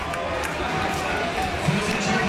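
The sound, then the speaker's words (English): A home crowd at a rugby league match reacts to a penalty for the Cronulla Sharks with a steady, dense roar of many voices, holding at an even level without distinct peaks. “Yeah, the home crowd were very happy to receive that penalty. They're really getting behind their team, trying to give them a bit of a lift.”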